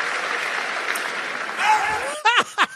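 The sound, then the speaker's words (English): A crowd cheering and applauding in a played recording: a steady wash of noise gives way to a few short bursts of voices and shouts near the end. “I'll play it again for you. They're cheering.”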